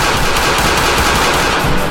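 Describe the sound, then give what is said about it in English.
A loud, sustained burst of automatic gunfire empties a whole magazine, with rapid shots running together into a continuous roar. “I empty the clip into this guy.”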